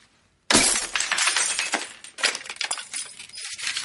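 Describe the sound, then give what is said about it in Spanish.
A glass picture frame smashed against the corner of a counter: a sudden loud crash, then a few seconds of scattered clinking and tinkling glass fragments, with no talk. “Se acerca a una esquina del mostrador y rompe el marco.”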